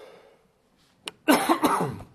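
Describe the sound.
A cough from someone with a tickle in the throat: a short catch, then a longer, harsh, rasping cough with a few pulses, loud and alone after a quiet pause.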